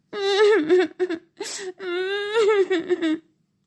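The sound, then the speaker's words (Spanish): Whimpering, wailing sobs from a voice imitating a little mouse crying inconsolably, several drawn-out moaning cries with wavering pitch, broken by short catches and gasps of breath. “Al ratoncillo se le quebró la voz y se puso a llorar desconsoladamente.”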